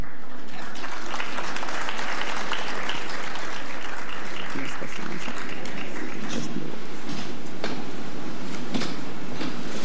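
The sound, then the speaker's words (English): Steady audience applause at an awards ceremony welcomes a presenter to the stage, a dense, continuous patter of clapping hands that holds strongly for the full stretch without any talk. “Please welcome our presenter. Please put your hands together for the Honorable Minister Kwame McCoy.”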